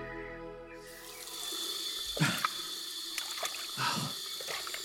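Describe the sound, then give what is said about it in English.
Tap water runs in a bathroom while someone washes their face, a steady rushing hiss broken by a few louder splashes as hands scoop and splash the water. “I went into the bathroom to wash my face.”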